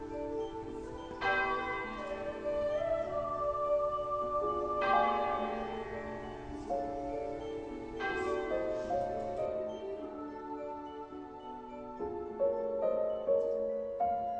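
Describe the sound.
A sweet-toned bell rings with a few slow, widely spaced strikes, each leaving a long, shimmering decay that overlaps the next. The sound stays faint and alone, with no voices.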